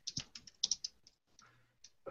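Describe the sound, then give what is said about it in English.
Fingers type on a computer keyboard in a quick, irregular burst of sharp, light clicks, then a few scattered taps after a short pause, fairly quiet. “What are you typing?”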